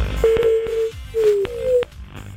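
Ringback tone on an outgoing telephone call: two steady mid-pitched ring tones, each about two-thirds of a second long, with a short gap between them.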